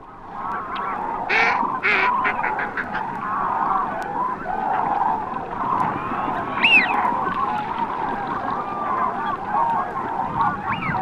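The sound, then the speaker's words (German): Gadwall duck quacking near a large crane roost on the Baltic coast. A few harsh quacks come near the start, over a dense, steady background of other bird calls. “Am Beginn das Quaken einer Schnatterente.”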